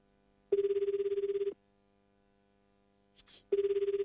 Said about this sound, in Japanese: かかるかな。どうだ。どうだ。どうだ。5コールですよ。あれ長い。